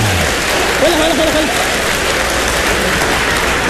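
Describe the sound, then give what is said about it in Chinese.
Steady audience applause fills the whole stretch, dense and continuous, with a brief voice heard over it near the start. “您还鼓掌呢，您呢？ 观众朋友们很配合”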